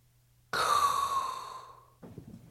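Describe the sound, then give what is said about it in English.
One long, breathy intake of air comes in suddenly, is loud at first and then thins out gradually. Faint, soft knocks and rustles follow once the breath has ended. “all there is left to do is inhale a hot breath”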